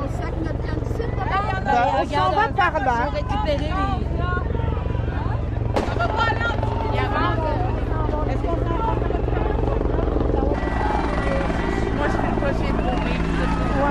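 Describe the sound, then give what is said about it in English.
A police helicopter flies overhead, its steady, pulsing rotor drone running through the whole clip beneath the chatter of a crowd of people talking. “And a helicopter is over us now, and I can clearly see that it says police on the side of the helicopter.”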